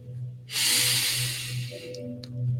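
A person takes a deep inhale during a guided meditation: one long, loud, airy breath that draws in steadily for well over a second over a low, steady hum, followed by a couple of faint soft clicks.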